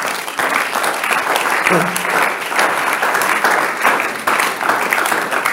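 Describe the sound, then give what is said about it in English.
Applause from a church audience at a sermon, dense and steady clapping that carries at an even loudness from start to finish. “Give the Lord a clap of it.”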